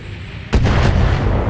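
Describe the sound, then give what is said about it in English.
Long-range missile volley fired at a Panther mech in a turn-based mech video game: a sudden loud booming launch that breaks into a few quick bursts over a sustained low rumbling roar. “So we got 55% chance to hit that Panther with another LRM shot from Locathor. Let's do it.”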